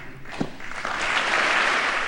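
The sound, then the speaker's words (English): Sustained applause in tribute to a fallen U.S. Navy special operator. A dense wash of clapping swells after about a second and then holds steady and loud to the end. “And the applause was sustained. It went on for quite some time.”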